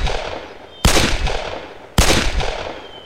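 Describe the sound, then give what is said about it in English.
Two sharp, loud gunshots from a Colt revolver fired at rocks. The reports come about a second apart and each leaves a decaying tail. “By the time he had emptied the Colt, only his first shot had hit anywhere near where it was supposed to.”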